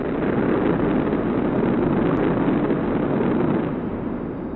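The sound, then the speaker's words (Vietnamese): Roaring wind rushing through a cave, a loud, steady, thunderous rumble that holds constant and eases slightly toward the end, with no voices. “Lúc này chợt có tiếng gió ào ào nổi lên, ầm vang như sấm giật.”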